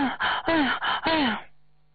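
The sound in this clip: A voice imitates wheezing, short breaths that keep cutting off, mimicking the breathlessness of being unable to keep the breath going. A few strained, voiced gasps come in close succession, then stop into silence.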